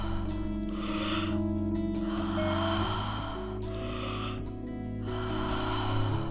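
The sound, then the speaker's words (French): Deep breaths in and out during a workout session; a few loud, rushing breaths in a slow alternating rhythm over steady background music. “Inspirez, expirez. Faites de belles respirations profondes.”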